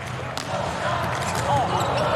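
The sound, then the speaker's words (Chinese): A volleyball is served at match point in a men's international quarter-final between Poland and Ukraine. A few sharp ball impacts ring out over constant crowd noise. “恭喜波兰队拿到了本场比赛的赛点。图普奇的发球”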